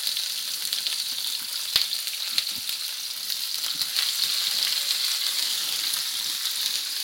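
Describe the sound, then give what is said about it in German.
Vegetables, including red bell pepper and green spring onions, frying in hot oil in a pan: a steady, dense sizzle full of fine crackles and a few louder pops, constant in level with no talk. “Wie man das hört, das Fett ist heiß und das Gemüse ist in der Pfanne.”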